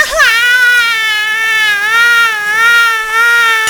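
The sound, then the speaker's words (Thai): High wailing cry of a baby snail in a children's story, one long sustained tonal wail whose pitch wavers up and down for several seconds, with no talk. “ลูกหอยทากจึงได้ร้องโฮออกมาและได้กล่าวว่า เราเดียช่างน่าสงสารท้องฟ้าก็ไม่ปกป้องเราแผ่นดินก็ไม่ปกป้องเรา”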